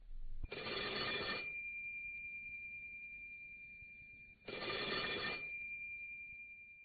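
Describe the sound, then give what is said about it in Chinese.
A telephone ringing at midnight: two long, loud bursts of bright electronic ringing, each followed by a steady high tone that lingers until the next ring. “有一天晚上午夜12点的时候，电话响”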